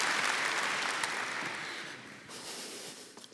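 An audience claps for a guest coming on stage, loud dense applause that gradually thins and fades away over a few seconds.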